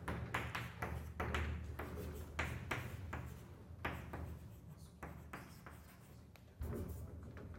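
Writing on a surface while a mechanics formula is worked out: many short scratchy strokes and light taps follow one another unevenly over a steady low hum, with no voice.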